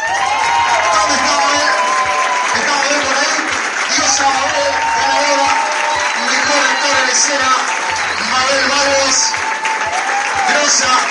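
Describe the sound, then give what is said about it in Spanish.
Loud, continuous audience applause at the closing ceremony of a film festival in Mar del Plata, filling the whole stretch without a break, with voices mixed in. “fuerte aplauso para ella nuevamente”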